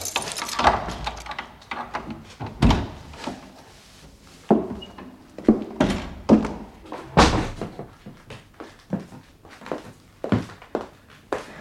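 A door being unlocked and opened, heard as many wooden thunks and knocks in an irregular sequence, some sharp and loud, others softer, continuing throughout.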